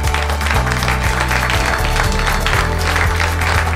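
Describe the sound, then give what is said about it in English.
A live audience applauds at a recorded talk in the Walker Ames Room of Kane Hall, University of Washington. The clapping stays steady and fairly loud for a few seconds. “This is Kindling Muse, recorded in front of a live audience at Walker Ames' room in Kane Hall at University of Washington.”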